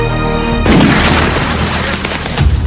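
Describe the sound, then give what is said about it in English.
A loud gunshot from a homemade gun bursts out as a heavy, booming blast with a long, rough rumbling tail that stays loud to the end. “What the hell kind of gun is that? Something I made.”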